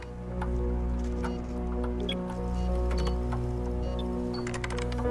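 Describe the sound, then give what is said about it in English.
An agent taps on a computer keyboard with his left hand, a scatter of light, quick clicks running under a steady low drone. “He taps into a keyboard with his left hand while making notes on a pad with his right hand.”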